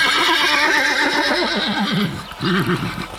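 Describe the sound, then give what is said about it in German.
A human voice imitates a horse neighing: a long, loud whinny with a rapidly quavering, wavering pitch that fades briefly and then returns in a shorter fluttering burst near the end. “Das Wiehern gelingt mir so gut, als hätte wirklich ein Pferd gewiehert.”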